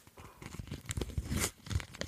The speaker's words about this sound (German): mache ich mich mal an, hier den zweiten Umschlag zu entumschlagen